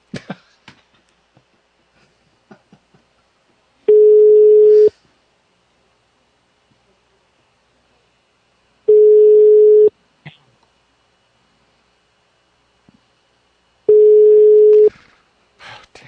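Fax machine tone on a phone call: three long, steady, low-pitched beeps, each about a second, evenly spaced with silence between them.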